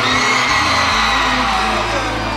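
A concert crowd screams and whoops in answer to the performer, a dense, sustained wall of high shrieks with a low steady hum underneath.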